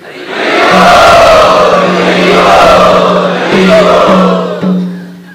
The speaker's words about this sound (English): let us welcome them by chanting